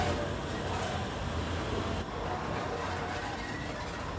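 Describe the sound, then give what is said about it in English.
The Flying Scotsman steam locomotive inches slowly along the track, giving off a low, steady rumble that holds as an even drone with no distinct beats. “Roger inches the train along as it approaches a red semaphore signal at 9 o'clock.”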